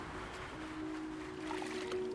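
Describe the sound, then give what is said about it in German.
Water poured over a natural gravestone during cleaning with a toothbrush, sponge and dish soap, a faint, steady trickling wash with no breaks. “Kannst du ein bisschen Wasser drüber schütten? Noch ein bisschen.”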